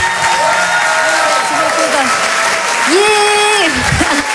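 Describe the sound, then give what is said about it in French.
Audience applause and cheering fill a comedy theatre with a steady, dense roar of clapping throughout, while a voice talks over the crowd. “Je vous demande de l'encourager, faites du bruit s'il vous plaît, pour Lise de Hurtevent.”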